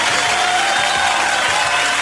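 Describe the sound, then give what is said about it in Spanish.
An applause sound effect salutes people who compete in sports events: steady, dense clapping mixed with faint crowd noise, continuing evenly and without a break from start to finish. “Que se oiga masivo el aplauso.”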